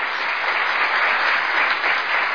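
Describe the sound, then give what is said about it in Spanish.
Steady applause from a crowd forms a dense, unbroken roar of clapping, slightly dull and lacking sharp highs, with no distinct voices over it. “usted se merece un aplauso. Y qué mejor poder darle ese aplauso con nuestros amigos y amigas oyentes que están en los 940 amplitud modulada de Radio Casa de la Cultura Ecuatoriana.”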